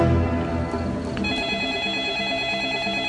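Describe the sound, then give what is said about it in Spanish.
A telephone rings in a smoke-filled living room, a bright, steady ringing tone that rises out of a dense musical bed partway through and holds until the end. “Fue el sonido del teléfono el que alteró la energía de aquel momento.”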